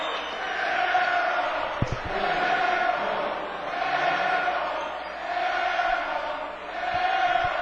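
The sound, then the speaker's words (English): A basketball crowd jeers a player after his airballed free throw, a sustained wash of booing and shouting that swells and ebbs in repeated waves throughout. “Poland hadn't taken a free throw, and I'm not sure he'd taken a shot all game. He is being jeered relentlessly.”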